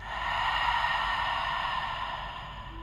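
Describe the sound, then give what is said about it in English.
A long, deep exhale through an open mouth during a guided breathing exercise, a soft airy breath that swells and slowly fades over a steady tonal background drone. “Take a deep breath in. Expand the belly, rib cage, chest. Fill yourself up. And mouth open, breathe out.”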